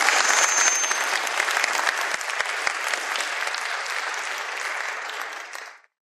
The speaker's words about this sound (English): Give those kids a round of applause, folks.